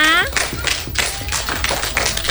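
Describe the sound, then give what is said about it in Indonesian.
Hand clapping from a group at a children's Quran recitation event starts right after a brief voice and continues as a loose run of irregular, fairly loud claps. “Tepuk tangan dong untuk kita semuanya.”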